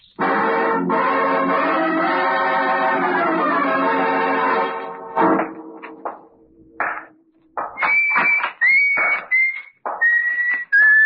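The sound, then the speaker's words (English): A person whistles while working in a morgue: a few short, clear, high whistled notes that change pitch, following a longer stretch of fuller, buzzy tonal sound. “You know me, whistle while I work.”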